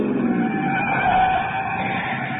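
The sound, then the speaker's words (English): Car engine and skidding tyres as a car speeds up a twisting, steep mountain road, a steady roar with tyre squeal running through the whole stretch. “We piled into the car and took off after Chase up a twisting, steep mountain road.”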